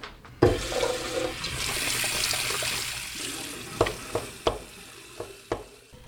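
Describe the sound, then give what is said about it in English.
Running water for washing hands gushes on abruptly and flows in a steady splashing rush, then thins out as a few sharp knocks and clacks punctuate the end. “All right, I'm going to wash my hands real quick, though.”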